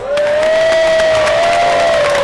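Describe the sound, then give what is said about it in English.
A studio audience at a Millionaire game show taping cheers, whoops and applauds loudly and continuously, a dense wall of crowd noise that holds steady throughout. “Very good. They can sound like there's 600 people right here.”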